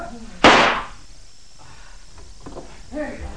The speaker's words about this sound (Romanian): Trebuie să mai trag un foc!